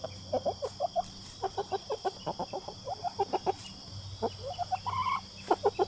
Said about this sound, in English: up past the chicken coop where all the hens are dust bathing on the yellow lawn